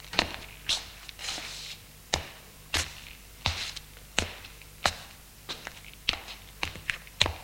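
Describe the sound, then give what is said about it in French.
Footsteps of someone pacing around a room, faint and uneven, with many soft thuds spaced irregularly and some landing close together. “Il se relève. Marche dans la pièce en réfléchissant.”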